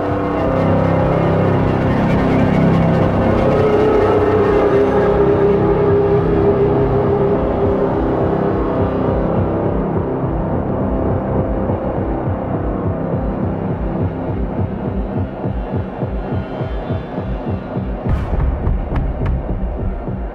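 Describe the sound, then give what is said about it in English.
A two-note motif played on reversed viola, with swelling bowed tones that bloom backwards, sits in a loud, dense, sustained musical texture over a low throbbing pulse. “That kind of two-note motif you're hearing, Rob told me, was it's actually reversed viola. I thought it was a synth for ages.”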